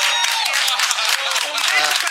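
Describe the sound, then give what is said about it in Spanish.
Dense clapping from an audience applauding the chamamé singer Ramona Galarza, a steady patter with a voice heard over it. “¡Ah, Ramona! ¡Sí! Este aplauso es para usted.”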